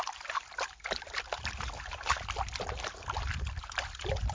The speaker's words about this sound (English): Okay, the panning has commenced.